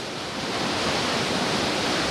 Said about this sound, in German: Vor uns, ich sehe, wie die Wassermassen runter ins Tal schießen oder über die Felsenwände da runterfallen.